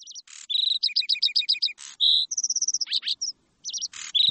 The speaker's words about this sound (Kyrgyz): булардын так үстүнөн газала чымчык торгой сайрап эмеспи?